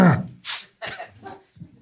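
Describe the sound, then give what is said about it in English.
A person clears their throat in a few short, raspy bursts, each brief and separated by small pauses. “What was that? What was what? The throat clear thing.”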